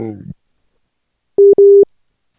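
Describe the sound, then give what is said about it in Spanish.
Telephone busy signal after a dropped call: two steady mid-pitched tones, the second slightly longer, sounding loudly after a short burst of talk. “Vaya. Se nos ha cortado la llamada. Vamos a volver a llamarlo otra vez, a ver qué ha pasado.”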